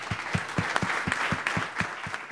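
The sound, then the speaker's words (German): An audience applauds for a filmmaker at a live event. The dense clapping is punctuated by a regular, evenly spaced low thumping pulse that keeps a steady beat from start to finish. “Applaus für Ole Zeissler.”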